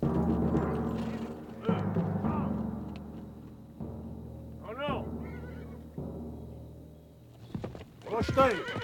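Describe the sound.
Horses of a posse reining in behind trackers: hooves slow and shuffle, and two shrill, wavering whinnies rise out of the noise, the second near the end, all under a man's talking voice.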